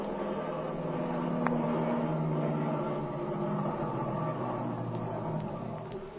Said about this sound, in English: They're getting ready to leave, all right. That engine's turning over.